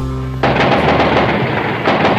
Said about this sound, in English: The army is here and they're firing. They're letting go with just about everything they have.